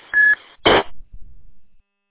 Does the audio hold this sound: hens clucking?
no